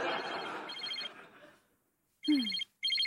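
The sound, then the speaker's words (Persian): Telephone ringing in bright, trilling electronic bursts. Two rings fade into a short silence, then the ringing resumes in further bursts, with no talk over it. “نمیخوای جواب بدی؟ نه بابا. خاموشش نکن، شاید از کمیته نوبل زنگ بزنن”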